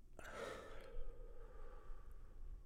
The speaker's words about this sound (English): And finally, one more big breath in and out.